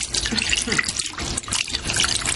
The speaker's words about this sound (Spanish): Cyril abre el grifo ahora a toda potencia